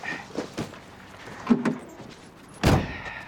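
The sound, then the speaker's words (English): A car's driver-side door opens with a few small clicks and knocks, then a louder, fuller thud near the end. “He opens the driver's door.”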